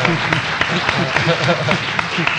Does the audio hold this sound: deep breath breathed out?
no